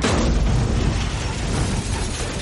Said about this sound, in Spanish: El pickup cae por la ladera. Los todoterreno de la policía dan marcha atrás. Abandonan el vehículo. El pickup choca contra él.